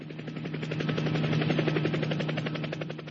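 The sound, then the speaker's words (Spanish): A helicopter ringtone plays alone: loud, rapid, steady rotor chopping with a low sustained hum underneath, held at an even pace for the whole clip. “tengo un ringtone buenísimo de un helicóptero.”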